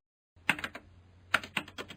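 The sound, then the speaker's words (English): Keys clatter on a portable PC keyboard: after a short silence come two quick groups of soft, uneven keystrokes, light and crisp with a faint low hum beneath. “He started to type the coordinates for Newbridge.”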